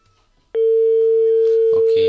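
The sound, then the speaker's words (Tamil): After a phone-in caller's line is cut, a click is followed by a loud, steady, unbroken telephone tone that holds to the end, with a voice briefly joining near the close. “இணைப்பில் இருந்தாங்க, line cut ஆயிடுச்சுன்னு நினைக்கிறேன்.”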